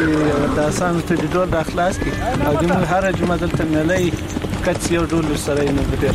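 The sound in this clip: Horse hooves clopping in quick, uneven beats under continuous talk. The horse was brought to a horse-sport match in Qarabagh district, Ghazni.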